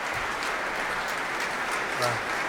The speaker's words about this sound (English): Ik wacht nog even tot het applaus helemaal weg is.